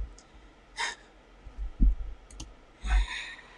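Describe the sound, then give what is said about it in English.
A camera being shaken gives a few brief rattling clicks and soft low thumps, scattered irregularly and fairly faint against near quiet. “shaking my camera”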